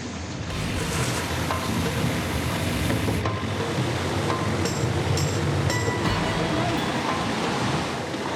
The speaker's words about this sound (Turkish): Su geldi ama her yerden sızdırıyor.